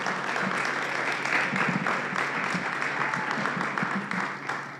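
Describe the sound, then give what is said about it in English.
Audience applause welcoming a pastor as he comes up, a dense, steady wash of clapping that holds at an even level throughout. “Let's give him a big hand as he comes.”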